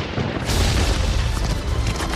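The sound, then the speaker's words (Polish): Dense video game gunfire with heavy booming blasts, loud and continuous throughout, the shots running together into one unbroken rumble rather than separate bangs. “Strzelają!”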